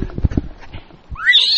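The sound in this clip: Horses on the move: a few low clip-clopping hoof thumps, then a loud, high, rising neigh that carries to the end.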